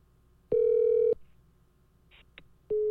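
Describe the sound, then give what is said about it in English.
Telephone ringing on a call: one long, steady electronic ring tone, a pause, then a few brief clicks, followed by the tone starting again at the very end. “Oh, he just picked it up and hung it up. He fucking picked it up and hung it up.”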